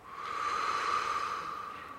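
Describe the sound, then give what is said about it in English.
A single long, deep breath, a steady airy rush that swells and then slowly tapers off, moderately faint and with no talk over it. “force yourself to take really long, deep breaths, like in, out,”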